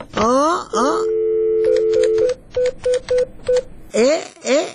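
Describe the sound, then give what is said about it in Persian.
A telephone is dialed, with a steady tone followed by a quick, irregular series of short, clear keypad beeps at a moderate level. “شما صبر کنین که من زنگ بزنم.”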